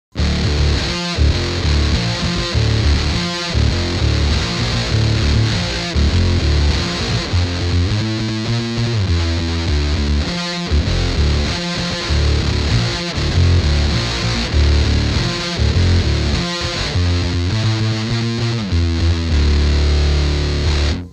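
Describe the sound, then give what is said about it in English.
Electric guitar played through a Big Muff fuzz and a Tentacle octave pedal for an alt-rock tone, heavy, gritty distorted chords chugging in rhythmic bursts with short gaps, played alone throughout. “Let's try the Big Muff with the tentacle.”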